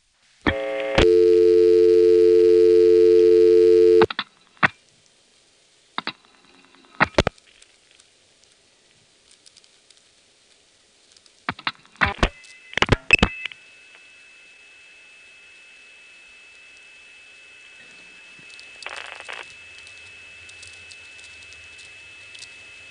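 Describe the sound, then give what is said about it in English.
Call placed from a 1973 payphone to the infamous 493 intercept near the Occoquan exchange. A steady multi-tone hum lasts about three seconds, followed by scattered clicks and pulses, then a long, high, steady tone with a short burst late on. “And finally, here's a composite demonstrating how the infamous 493 sounded from a payphone in 1973, dialed from either side of the Occoquan CO.”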